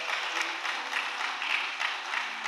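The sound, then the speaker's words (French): A church audience applauds, a dense, steady clapping that holds at an even level throughout without pause. “Est-ce que nous pouvons acclamer le Seigneur qui est parmi nous?”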